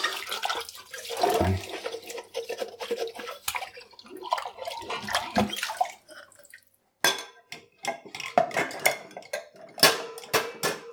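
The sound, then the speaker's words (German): Dishes and a glass being washed up in water, with many clinks and clatters of crockery and splashing at an irregular rhythm, a brief quieter pause near the middle, then more loud clattering. “Ah, da ist noch ein Glas. Ich glaube, dann muss ich mich auch erstmal ganz abtrocknen machen, bevor ich hier weiter abwaschen kann.”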